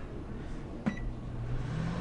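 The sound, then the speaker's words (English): A microwave oven heating a cup of water gives a single short beep, then settles into a low, steady, faint hum that continues to the end. “So first, let me heat this cup of water up here. Okay. Into the microwave? Into the microwave oven.”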